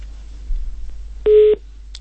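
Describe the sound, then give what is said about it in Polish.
A single steady telephone beep follows a dropped call. It is a short, clear tone of about a third of a second, rising out of a low hum on the line. “Połączenie przerwało. Przerwane.”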